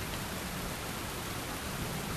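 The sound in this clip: Pelting rain of a storm, a dense, steady hiss that holds at the same level throughout with no breaks, and no voices.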